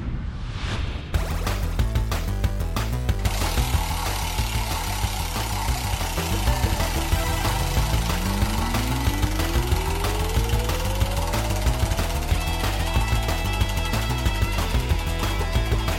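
A prize wheel spinning to draw names at random for fan club prizes: a loud, steady, rapid mechanical rattle and whirr with a tone that climbs smoothly in pitch through the second half, with no voices.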